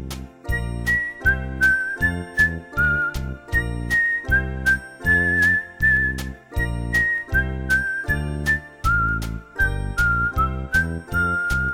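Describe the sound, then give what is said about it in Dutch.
A whistled tune with a bright, wavering melody held on long notes, carried over a steady, rhythmic low accompaniment that pulses throughout. “Fluiten.”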